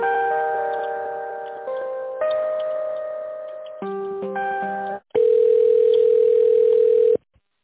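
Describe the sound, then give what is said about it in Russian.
Telephone line tones play while a call is transferred: several steady electronic tone segments shift in pitch every second or so, then one louder sustained tone holds for about two seconds before cutting off abruptly. “Вот я ей перенаправила ваше письмо только что. Сейчас соединю вас с ней.”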